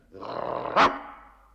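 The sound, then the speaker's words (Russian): A sleepy bulldog on guard duty gives one sharp, loud bark partway through a low, rumbling growl, with no other sounds around it. “С просонок дежурный бульдог рявкнул так, что под лисой со страха оказалась лужа.”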